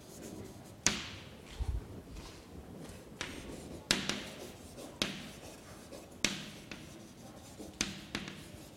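Pen or chalk strokes sketching a diagram with coordinate axes give a faint series of many short, sharp scratches and taps, spaced fairly evenly, with no talking.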